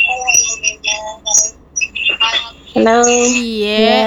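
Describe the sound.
A caller's radio plays loudly in the background over a telephone line, giving wavering, music-like harmonic tones. A voice briefly answers the call amid the broadcast sound.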